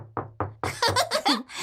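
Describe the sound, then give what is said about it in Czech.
A hand knocking and tapping: three dull, low knocks in an even rhythm, followed by a quicker run of brighter, busier bursts. “A co umí druhá ruka? Takhle bouchá. Takhle ťuká.”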